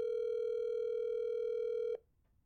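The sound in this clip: A telephone tone sounds while a call is being dialed: one steady, buzzy, sustained tone lasting about two seconds, then it cuts off abruptly with a click into near silence.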